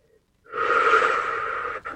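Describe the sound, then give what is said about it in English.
A single long, deep inhale, loud and breathy, holds steady for over a second before breaking off briefly near the end. “Nice deep breath.”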